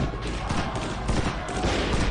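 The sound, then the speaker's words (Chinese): Rapid gunfire as police shoot into a crowd: a dense, crackling volley of many overlapping shots runs without a break over a steady wash of noise. “英帝国主义的巡捕向人群开枪，造成了多人死伤。”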